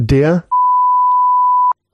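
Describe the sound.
A single electronic beep: a pure, steady, mid-pitched tone held evenly for just over a second, then cut off sharply. A brief burst of speech comes just before it.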